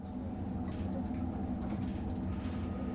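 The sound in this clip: A diesel railcar runs with a steady low rumble and engine drone, continuous and even throughout, with no voices.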